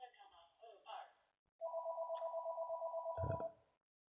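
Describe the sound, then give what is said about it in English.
A telephone rings with a single long electronic trill of rapid, even pulses lasting about two seconds. It comes right after a few words of talk and is followed by quiet. “pardon the phone.”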